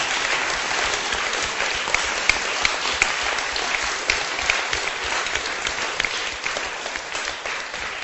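Church audience clapping in praise, a sustained, even roar of many hands with a few sharper individual claps poking out, continuing throughout.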